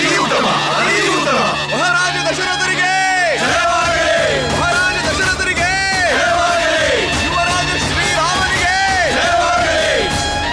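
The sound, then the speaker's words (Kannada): Crowd chanting victory cheers to Sri Rama in Ayodhya after Rama is proclaimed crown prince, with many loud, rhythmic, repeated shouts that continue steadily throughout. “ಎಲ್ಲೆಡೆ ಶ್ರೀರಾಮನ ಜೈ ಜೈಕಾರ ಪ್ರತಿಧ್ವನಿಸುತ್ತಿದ್ದವು.”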